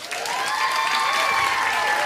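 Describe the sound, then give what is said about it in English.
An audience bursts into steady applause and cheering to welcome a co-host, a dense, even wash of clapping that holds at the same level throughout. “just put your hands together to welcome my co-host”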